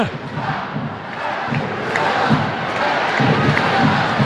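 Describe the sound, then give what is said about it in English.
A stadium crowd chants at a soccer match. Many voices form a dense, sustained roar that holds steady and swells slightly toward the end. “And the crowd commenting on referee Gerald Flores' socks, unless I heard that wrong.”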